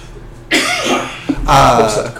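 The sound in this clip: Coughing from a person during a sports discussion, with two loud, rough bursts in quick succession against a quiet background.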